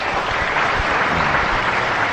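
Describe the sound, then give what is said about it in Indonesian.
Audience applause after a performance of a newly composed piece for a non-standard gamelan tuned between diatonic and pentatonic. Dense, continuous clapping holds a steady loudness for the whole moment. “tepuk tangan.”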